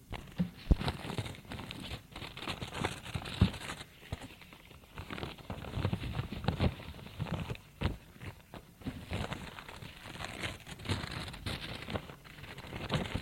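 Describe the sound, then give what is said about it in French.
Letters being opened, with paper tearing and crinkling heard as many soft, irregular rustles and crackles. The sound is faint and continuous, with no voices. “Il commence à ouvrir les lettres.”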